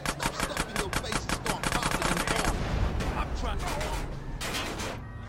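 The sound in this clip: Gunfire in the video game GTA: a rapid, evenly spaced stream of sharp loud shots that merges into a dense, continuous clatter of overlapping reports and sustained crackle toward the end.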